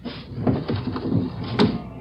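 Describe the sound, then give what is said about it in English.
A window is pushed open with a run of scraping, rattling knocks and frame creaks, irregular and moderately loud, with a sharper clack near the end. “Open the window and let me check.”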